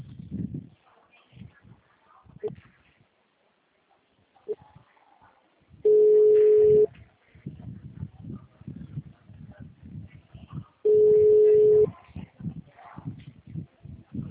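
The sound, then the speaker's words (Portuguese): Telephone line tone after a dropped call, heard as two steady, mid-pitched beeps, each about a second long and roughly five seconds apart, over faint scattered handling and rustling noise. “a ligação caiu de novo.”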